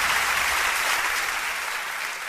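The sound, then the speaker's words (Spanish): An audience applauds at a live evening show: a dense, loud, steady wash of clapping that holds throughout and eases slightly at the end. “Muy agradecido de veras por este aplauso. Y bueno, este aplauso.”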